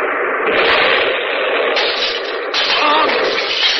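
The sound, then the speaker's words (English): A bomb explosion's roar, a loud, dense rumble that stays strong for nearly four seconds, with a few sudden surges along the way. “That was a bomb!”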